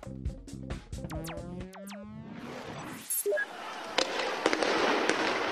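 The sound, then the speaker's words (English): Sharp pops and bangs with descending whistling swoops come from riot police clearing Bahrain's main square of sleeping protesters overnight with rubber bullets and tear gas. A rapid cluster of reports gives way to a dense, rushing wash of noise with scattered cracks. “That is the sound of riot police moving into Bahrain's main square overnight, taking the thousands of sleeping protesters there by surprise.”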